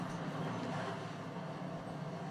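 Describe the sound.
Tank driving in a video game, a steady low rumbling engine drone with mechanical rattle that holds at an even, fairly quiet level throughout.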